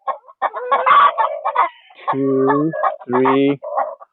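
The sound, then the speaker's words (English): Hens squawk and cluck in a henhouse with nesting boxes, a loud, shifting mix of short clucks and several longer, harsh, harmonic squawks. “6 hens in this box on the left, and there's one standing outside, very proud, squawking.”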